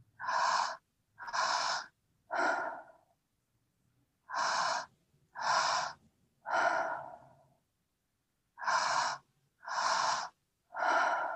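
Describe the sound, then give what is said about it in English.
Deep breathing exercise for energy and focus: nine forceful, breathy breaths in three sets of three, each set separated by a short pause, loud and alone with no talking. “So we can feel the belly move, feel the chest move, and then on that exhale, so just another few breaths”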